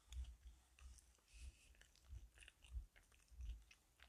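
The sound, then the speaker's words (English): Someone chews food with soft, crunchy bites that repeat roughly every half second. The sound is quiet and steady in rhythm. “sorry, I'm chewing.”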